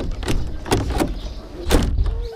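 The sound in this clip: A door being opened in a home: a few sharp clacks and thumps stand out over a low steady rumble, spread across a couple of seconds.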